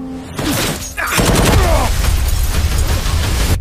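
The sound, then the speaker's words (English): Gunfire from people shooting: a dense, sustained volley of rapid shots that bursts in loudly after a quieter opening and keeps up without pause to the end. “Why are they shooting at you?”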